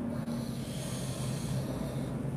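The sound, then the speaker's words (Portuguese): A slow, deep breath taken during a guided prayer, heard as a long, steady, breathy whoosh of air that stays even throughout, with no talk. “Agora, amados irmãos, amadas irmãs, vamos respirar profundamente.”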